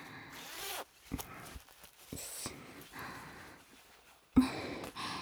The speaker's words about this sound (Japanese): リボンほどいて、ファスナー下げて、